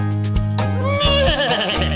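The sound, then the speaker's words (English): A horse neighs once among farm-animal sounds. The whinny is high and quavering, wavering and falling in pitch over about a second, and rings out loudly over a steady low drone. “a horse”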